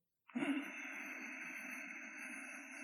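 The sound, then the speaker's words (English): Slow breathing through a deliberately constricted throat makes a soft, airy rasp. It starts abruptly, swells briefly, then continues as an even, faint hiss with no pauses. “can you hear it? Good. It's not the sound of silence. It's another breath, yeah.”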